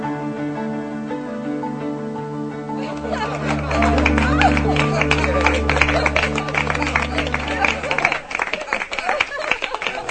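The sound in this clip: A studio audience applause sound effect: dense, crackling clapping bursts in over sustained music, holds steady and loud for several seconds, then thins out near the end.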